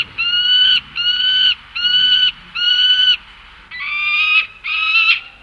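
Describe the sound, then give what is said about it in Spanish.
Peregrine falcon calling: six harsh, nasal, high-pitched cries of similar length, repeated in an even rhythm with short pauses between them and no other sounds. “Y continuamos hablando de aves, escuchando a este halcón peregrino. Vamos a escucharlo.”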